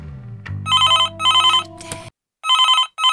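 Telephone ringing in repeated bright, warbling bursts that stop for a short silent gap and then resume, after a low hum at the start.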